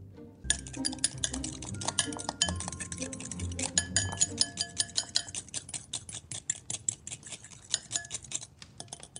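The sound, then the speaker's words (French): A fork clinks against a bowl while mixing a salted and peppered mixture, making many quick, light metallic taps in an uneven rhythm. The clinks are fairly faint and continue to the end. “Mélangez bien à l'aide d'une fourchette.”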